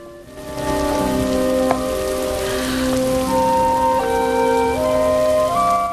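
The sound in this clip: Rain falls in a steady, dense hiss that continues throughout, with music of sustained tones playing over it.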